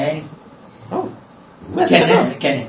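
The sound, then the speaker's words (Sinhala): Dog barking in a few short bursts, mixed with people talking. “ඇත්තනම් බුරන්නේ. ඔව් ඇත්තනම් බුරන්නේ.”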